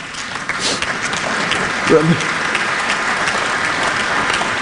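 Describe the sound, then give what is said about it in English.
Audience applause during a political speech: sustained, even clapping from a crowd, with a voice briefly rising over it midway. “If you have reached the point where you have to clap at that, you are doomed. No, truly. If you have to clap at the notion that character matters, you're in grave difficulties”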